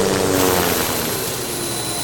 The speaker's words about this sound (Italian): L'elicottero si posò delicatamente, nonostante il vento che fischiava furioso.